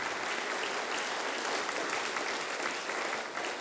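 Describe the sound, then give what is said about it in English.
A church audience at a Sunday service claps to welcome and honour a pastor, a continuous, evenly sustained round of applause from many people. “I'd love it if we could put our hands together for Pastor John Herbert. Honour him and thank him.”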